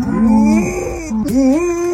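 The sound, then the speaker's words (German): A female dog that loves cows gives a cow-like moo instead of barking: a drawn-out, low, wavering call that sags in pitch, then swoops back up near the end, heard alone. “Sie liebt Kühe und wenn die Moon, muss Lucy immer mitmachen. Statt bellen klingt das also so.”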